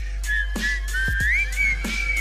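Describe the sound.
Someone whistles a wavering, fairly high tune that slides gently up and down over a steady low hum, with no talk.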